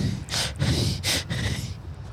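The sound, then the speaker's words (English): Loud, heavy human breathing: a few hissing, breathy inhales and exhales come in uneven bursts, each swelling and fading, with no speech. “Sorry, that was me just breathing. That's how I breathe.”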